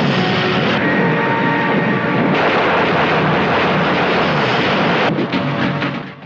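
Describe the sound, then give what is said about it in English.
Roaring aircraft engine and rumbling bursts of German gunfire from a war film scene of a WWI plane under attack, a loud, dense and continuous wall of noise that shifts in texture a couple of times. “Grant fires on the German gunners and kills some men. His plane takes a hit behind the cockpit and smoke trails out behind it, but Grant manages to keep going.”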